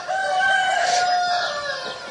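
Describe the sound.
Chickens kept shut in a coop against bird flu, with one drawn-out, high crowing call rising over a steady rustling background for about two seconds.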